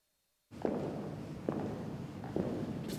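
Footsteps of someone walking along past museum dioramas: a few slow, evenly spaced steps over a steady hiss that begins suddenly after a moment of silence.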